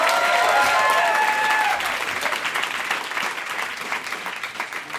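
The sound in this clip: Dense audience applause welcoming a performer onto a stage, loud and full at the start, then thinning into lighter, uneven clapping that carries on to the end.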